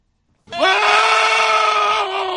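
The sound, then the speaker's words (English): A screaming goat sound effect played in a studio: one loud, sustained bleating scream that starts abruptly, rises briefly in pitch, then holds a steady, raspy tone for nearly two seconds before cutting off. “Screaming Goat by special request here in the studio”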